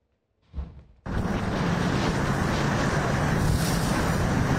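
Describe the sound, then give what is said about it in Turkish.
The Karayel domestically built attack boat at sea during the Efes 2026 military exercise: after a short muffled burst, a loud, steady roar of rushing wind and water sets in abruptly and continues. “Tatbikatta yerli ve milli hücum botu Karayel sahneye çıktı.”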